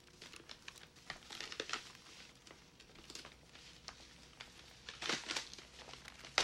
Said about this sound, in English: The client hands the boss an envelope full of cash. He takes it from him and thumbs through the bundle of notes.